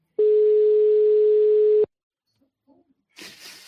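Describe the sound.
A telephone line tone sounds while a call is placed home: one steady, mid-pitched tone lasts under two seconds and cuts off into near silence. A few faint ticks follow, then a short burst of soft noise.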